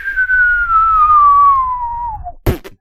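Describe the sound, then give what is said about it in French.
A cartoon-style falling whistle for a crashing stock, a loud steady tone gliding slowly downward for over two seconds before ending in a single dull thud. “Vous voyez, ça, c'est le bruit de l'action Ubisoft qui se crache”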